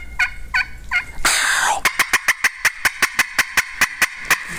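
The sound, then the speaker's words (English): A wild turkey gobbles: three soft yelps come first, then a loud rattling gobble, followed by a long run of evenly spaced sharp clucks. “She just wants to let the other turkeys know where she's at. She's real soft and subtle. And she's just, I mean, if he gobbles at that, he's heard you.”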